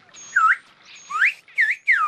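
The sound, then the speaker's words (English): A person whistles in a whistled language: four sharp, high whistled bursts with short gaps between them, each gliding up or down in pitch like speech tones, with no other voices. “There are whistled versions of about 80 languages that often developed to help people communicate over rugged terrain.”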